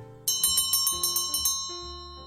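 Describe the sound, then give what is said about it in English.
A bell rings out in many quick, evenly spaced strikes, each leaving bright, sustained ringing tones. The strikes stop and the tone hangs on and fades slowly. “There's the bell.”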